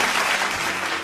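Applause from a crowd, a loud, dense wash of clapping that holds steady through its short length and dips slightly at the very end.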